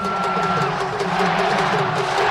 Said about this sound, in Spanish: El público grita fuera.